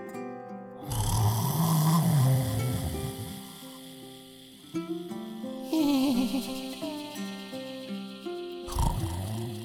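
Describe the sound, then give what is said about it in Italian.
A witch snores loudly in deep sleep, with a few long, rasping, growling snores separated by brief pauses and a rough, roar-like tone. “La strega chiuse gli occhi e cadde in un sonno profondo.”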